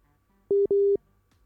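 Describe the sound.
An incoming telephone call tone on a talk program: two steady, mid-pitched electronic beeps close together, the second longer than the first, sounding alone over faint background hiss.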